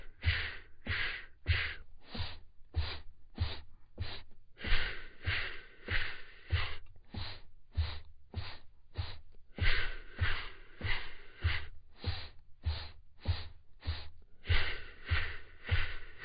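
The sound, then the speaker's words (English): Segmented breathing: air drawn in through the nose and pushed out in four short stages, repeated. The result is a long, loud, steady train of breathy bursts with low thuds beneath. “Inhaling from the nose, bringing the air in and filling yourself up, and then exhaling all the way out, doing it in 4 stages.”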